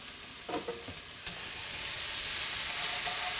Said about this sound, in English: So we want a little bit of color on the sausage. We want some of the fat of the sausage to come out,